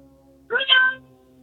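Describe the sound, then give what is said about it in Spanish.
A real cat meows once, a bright, rising and falling wail of about half a second, heard over a steady low hum and faint background noise while someone works in a truck. “Él tiene un gato de verdad. Sí, eso es un gato de veras, compadre.”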